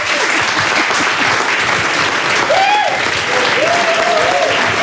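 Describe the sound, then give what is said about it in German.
A studio audience gives an applause rocket, a dense, loud, steady burst of clapping that holds for the whole stretch, with a few shrill whistles rising above it. “Machen Sie bitte eine Applausrakete.”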